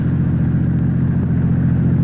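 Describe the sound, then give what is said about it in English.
A car drives with a constant low engine and road rumble, steady and unbroken, with no voices over it. “All you're doing is driving.”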